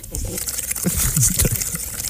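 Someone blows bubbles through a straw into a glass of liqueur, making loud, continuous gurgling with irregular bursts of popping and churning liquid.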